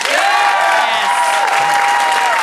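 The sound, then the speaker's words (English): Audience applause used as a vote at a university event: a loud, sustained wall of clapping mixed with high, drawn-out cheering and whooping voices that carry on throughout. “Let's do it again by applause.”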